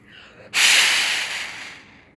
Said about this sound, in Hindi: बछड़ा हवा की पहली सांस लेता है, उसकी नाक उसके सिर के ऊपर है, इसे ब्लो होल कहते हैं।